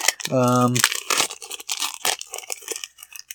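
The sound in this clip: Crinkling and tearing of a Magic: The Gathering set booster pack wrapper being opened: a brief voice, then a string of sharp, papery rustling bursts.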